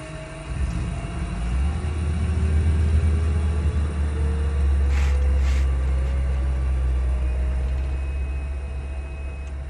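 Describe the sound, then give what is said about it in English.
A small plane taxis down a red earth runway and takes off, its loud engine giving a steady, dense drone with a thin whine that slowly climbs in pitch. “As we make our way down the red earth runway, we ascend into the air and fly over Lake Victoria, and then make our first stop at Moroto.”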